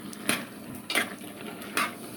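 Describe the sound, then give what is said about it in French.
A spoon scrapes around a pot as rougail chevaquine, a dish of small shrimp, is stirred while it cooks; three distinct scraping strokes at an even pace over a faint background hiss. “Pour que le rougail chevaquine soit parfait, il faut le surveiller et le mélanger le plus possible.”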